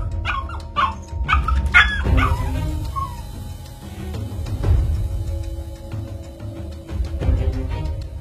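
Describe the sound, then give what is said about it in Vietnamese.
A dog yelps in pain after being hit by a thrown knife, giving a quick run of sharp, high yelps in the first two seconds, followed by lower, rougher noise. “chỉ nghe những tiếng kêu ăn ẳng vang lên. Con chó lập tức bị phong phép, không thể hóa thành khói được.”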